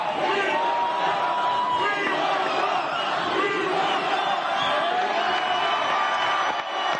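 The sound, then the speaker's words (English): A crowd screams and shouts at the Triller Fight Club Legends 2 event, a dense, continuous roar of many voices that stays loud throughout. “That's what everybody's saying in the audience. I don't think I hear that back home. Everybody's screaming right now.”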